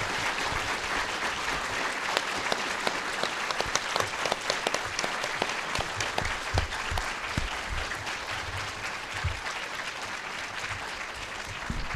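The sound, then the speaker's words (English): Audience round of applause for a conference panel, a long, even stretch of many hands clapping at a steady moderate level without fading or voices. “And you may give them a round of applause.”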